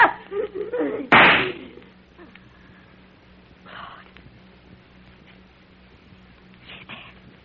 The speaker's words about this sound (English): But in just 2 seconds, I'm going to shoot you right through the heart.